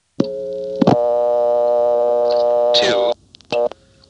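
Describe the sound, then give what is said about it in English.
Telephone intercept on a call back to the Marshfield exchange after dialing a vacant number: a short electronic tone, then a long steady buzzy tone rich in harmonics, and a brief closing tone. “And the first thing I want to do is call back to Marshfield, where we just were, and dial a vacant level. And seemingly miraculously, this time, intercept actually works correctly.”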